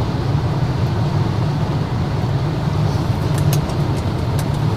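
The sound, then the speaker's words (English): Steady low rumble inside a moving car, a dense, even road and engine drone that holds constant throughout with no breaks and no voices. “The audio quality isn't the greatest because I do it while I'm driving.”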